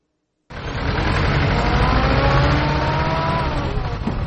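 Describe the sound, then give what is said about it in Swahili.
Traffic on the Nairobi–Mombasa highway at Mtito Andei: a loud, steady engine roar begins abruptly after a brief silence and holds without a break to the end. “Ninachoshuhudia ni barabara moja tu, magari yanayokwenda na yanayotoka. Eneo ambalo nimesimama sasa hivi linaitwa Mtito Andei”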